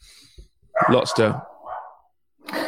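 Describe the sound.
A pet dog gives a few short, sharp barks in quick succession with a brief yelping tail, then starts another bark at the end.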